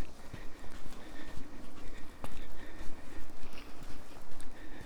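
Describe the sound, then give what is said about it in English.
Footsteps walking up a sandy beach toward firmer sand: many soft, crunching steps in a steady, even rhythm over a broad wash of background noise, with no talking. “I walk back up the beach to gain some firmer sand.”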